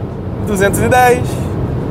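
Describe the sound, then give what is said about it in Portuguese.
A 530-horsepower car accelerating at high speed on the Autobahn: a steady, low engine and road roar runs throughout beneath a voice speaking. “É quando você exige tudo do carro que ele entrega os 530 cavalos. E o torque, na verdade, continua constante.”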